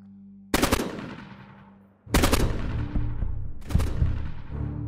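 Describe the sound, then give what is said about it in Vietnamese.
An AK rifle fires in a forest in three loud bursts of rapid automatic fire. Each sharp, crackling volley trails off into a long ringing decay before the next begins. “Tiếng súng AK nổ một tràng dài rền cả khu rừng, chim chóc giật mình tung cánh bay nháo nhác.”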